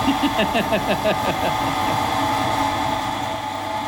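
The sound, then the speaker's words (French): A press machine runs with a steady mechanical drone. Its rhythmic pulsing is clear at first, then it settles into an even, continuous hum with no talk. “Oui, tu peux y aller, tu peux mettre la presse en route.”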